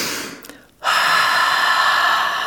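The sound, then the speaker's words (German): A person takes a deep breath: a soft, fading breath sound, a brief pause, then a longer, loud, steady rush of exhaled air that lasts to the end. “10-mal ganz tief durchatmen, dabei doppelt so lange ausatmen wie einatmen”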